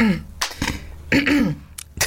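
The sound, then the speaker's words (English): Throat clearing by a person among voices: a few rough, raspy bursts interrupt talking. “I love the way you cleared your throat.”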